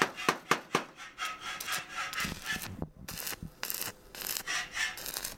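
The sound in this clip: Rhythmic rasping strokes of metalwork in a welding workshop where iron stands for water tanks are being made. A few sharp strokes at the start give way to steady scraping, like sawing or filing, with no voices.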